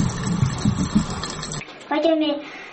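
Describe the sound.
Running, splashing water as a little girl washes her doll, a steady watery wash with a few soft splashes that stops partway through, after which a voice speaks briefly.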